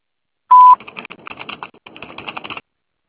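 An answering machine beep sounds before a message: one brief, steady, fairly high tone lasting about a quarter second, followed by a couple of seconds of scattered clicking and rustling noise.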